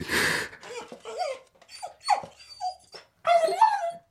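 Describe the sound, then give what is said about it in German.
An old, dying dog whimpers as it lies down. A breathy exhale comes first, then a few soft, high, wavering whines with short gaps between them, alone without talk. “Er legt sich zu meinen Füßen nieder, wie zum Schlafen, winselt und ist tot.”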